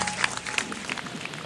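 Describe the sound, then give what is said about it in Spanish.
People applaud in a studio with a faint, brief patter of scattered hand claps. “Aquí te están aplaudiendo.”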